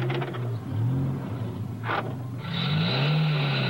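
A car's engine hums low and steady, its pitch shifting slightly as the vehicle drives around an abandoned car, with a brighter hiss joining in the second half.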